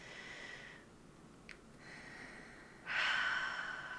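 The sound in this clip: Slow, deep breathing in and out, heard as a few soft, airy breaths with short pauses between them. The final breath is noticeably louder than the others.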